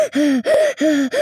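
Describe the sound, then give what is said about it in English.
A person imitating wheezing for a sound effect, making a rapid run of loud, strained, whistling breaths in a steady rhythm, each one tonal and raspy, with no speech. “I got to, do some wheezing for him.”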